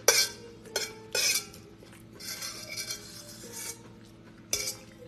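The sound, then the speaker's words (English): Utensils scrape and clink against a bowl of green goddess salad, first in a few sharp bursts and then in a longer stretch of steady scraping. No one talks. “I'm scraping the bowl.”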